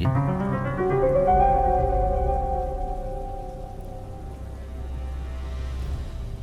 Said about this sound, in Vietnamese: Quả tình ngoài trời vẫn mưa tầm tã, sấm chớp lập lòe